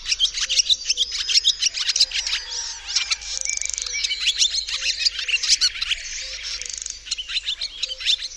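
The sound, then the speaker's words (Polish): A barn swallow sings its fast twittering song, a continuous stream of rapid, high chirps with shifting pitch and an uneven, improvised-sounding rhythm, steady for the whole stretch. “Dymówka ma najbardziej wyrafinowany śpiew spośród wszystkich naszych jaskółek.”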